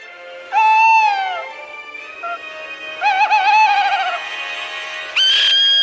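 Owls screech in a few drawn-out, wavering, high shrieking calls with clear harmonic tones and short gaps between them. The calls are loud and heard alone, with no talking.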